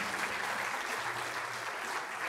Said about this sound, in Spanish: Denle otro aplauso al Señor.